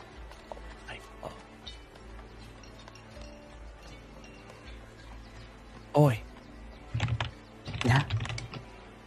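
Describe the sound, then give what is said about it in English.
Faint, rapid clicking of typing on a computer keyboard during an online game session, running under people talking, with a few louder bursts of noise later on. “There's a lot of typing, and sorry.”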